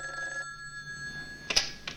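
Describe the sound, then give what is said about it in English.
A telephone rings at a nurse's desk in a hospital, a steady electronic tone that holds for about a second and then breaks off, followed by a few brief noises. “Yes? Oh, Lieutenant, it's for you. Frank gets rid of his tray and comes to answer the phone.”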